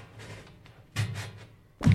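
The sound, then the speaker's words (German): Knuckles rap on a wooden cabinet, and the knocks sound hollow. A few dull knocks come in a quick cluster, then a louder thump follows after a short pause, over a quiet background. “Ich klopfe mal dagegen. Klingt hohl.”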